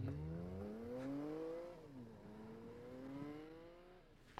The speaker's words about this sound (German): Jetzt steigt sie wieder in ihr Auto.